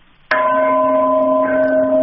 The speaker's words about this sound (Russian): это был звон от Алеся Шатерника